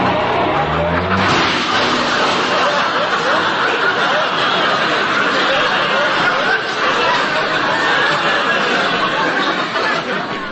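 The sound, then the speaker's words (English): A car backs slowly and carefully out of a cramped garage, its engine a loud, steady rumble that fills the whole stretch with little change in level. “There ain't much room here in this garage. And I gotta back out very carefully.”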